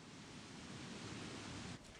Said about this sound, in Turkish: Buracao Kanyonu'nun en ıssız ve uzak bölgesinde etrafınız binlerce karmaşık tortul kayaç katmanları ve kuvvetli şelalenin sularıyla sarılı.